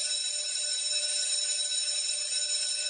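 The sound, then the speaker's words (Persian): A school bell rings as one continuous, shrill electric tone, steady in pitch and loudness from start to finish, with no other sounds. “زنگ مدرسه به صدا در می آید.”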